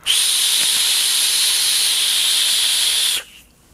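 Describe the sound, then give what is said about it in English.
Loud, steady airy hiss of a vape drawn through an RDA atomizer with a chuff-style top cap and adjustable airflow, one continuous pull of about three seconds that cuts off abruptly. “It's just a really, really loud RDA. It's got a chuff style cap on top, and you can adjust the airflow.”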